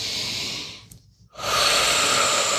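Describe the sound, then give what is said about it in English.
A deep breath drawn in during a guided meditation, heard as a loud, airy rush of breath that stops briefly and then resumes as a second, longer breathy stretch. “taking a deep breath in.”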